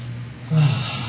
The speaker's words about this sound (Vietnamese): luôn luôn hít vào, thở ra ba hơi, hít thật là sâu, thở ra bằng miệng.